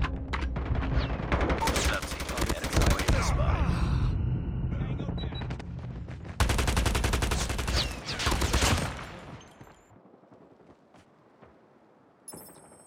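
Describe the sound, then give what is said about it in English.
Gunfire in the Call of Duty video game comes in two long bursts of rapid automatic shots, loud and dense, separated by a brief lull. Quieter scattered sounds and a short final crack follow. “Enemy in sight. Headshot! Enemy contact.”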